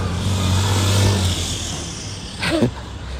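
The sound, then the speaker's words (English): A big truck drives by with a steady, low engine and road rumble that swells a little and then eases off, heard alone without talk. “big truck driving by”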